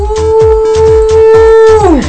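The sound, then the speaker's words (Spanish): A person imitates a dog's howl with one loud, sustained, steady note lasting about two seconds that drops sharply in pitch at the end, over a rhythmic low thumping. “Parece que va a ladrar aquí”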